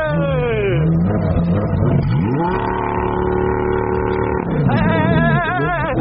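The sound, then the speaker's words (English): A car engine revs loudly. Its pitch drops, climbs and holds at a high steady whine, then falls and climbs again in repeated throttle sweeps. “This car is so cool. Look at all of the buttons. All right, rev it.”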